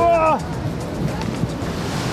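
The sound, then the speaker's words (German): Loud, steady rushing and splashing water on a water park ride, a dense continuous wash of noise throughout. “Wir sind jetzt gerade auf einer Wasserbahn. Biberburg heißt das und wir sind jetzt schon nass geworden.”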